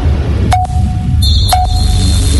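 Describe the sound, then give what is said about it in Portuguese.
A radio station's three-second time signal: two short mid-pitched beeps about a second apart, with a higher steady tone entering between them and sustaining to the end over a constant low background noise. “Atenção, emissoras associadas, para o toque de 3 segundos.”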